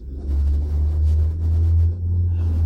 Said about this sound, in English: wow, what's that noise? That is someone driving by. That's not the garbage truck. Hmm. Or, no, that might be the garbage truck.